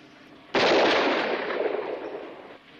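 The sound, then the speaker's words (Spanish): A single gunshot from a handgun cracks out suddenly and loudly, followed by a long, noisy, hissing tail that slowly fades. “Empuñe el arma. Ande, dispare.”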